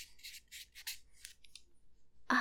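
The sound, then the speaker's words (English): Pen scratching on paper as someone handwrites a letter: a series of short, dry, rasping strokes in quick irregular bursts, faint and isolated, with brief pauses between words. “See, I'm gonna write, "Dear”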